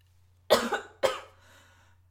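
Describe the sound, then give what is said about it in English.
Two sharp, loud coughs from a person, about half a second apart, the second slightly shorter with a brief tail, set over a faint steady low hum. “Just cough randomly.”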